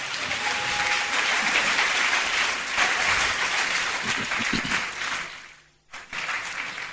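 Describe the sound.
A church audience applauds in praise, a loud, dense, continuous wash of clapping that dips sharply to near silence shortly before the end, then resumes at full strength.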